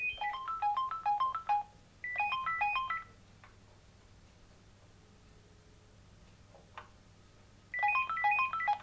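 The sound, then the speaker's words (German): Three bursts of a rapid electronic telephone ringtone, stepping beeps in a quick melody, sound while calling an answering machine. Quiet gaps with faint hiss separate the bursts. “Moment, ich rufe mal ganz kurz an.”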